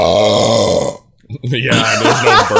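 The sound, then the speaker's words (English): A voice imitates a burp as air escaping from a newly opened sealed game case: a long, low, croaking burp, a brief silence, then a second rougher, drawn-out belch. “there's no burp. I remember the good old days when I opened my case and a big old burp comes right out of my face.”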